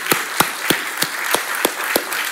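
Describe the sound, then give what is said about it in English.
A church audience applauds its staff with a steady wash of clapping. Sharper claps recur in a fairly even rhythm, roughly three per second, at a moderate level and with no voices. “Can you guys give those folks a round of applause as well?”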